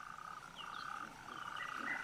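Frogs croaking in a faint, continuous chorus, a steady trilling drone overlaid with brief higher chirps that keeps going without a break.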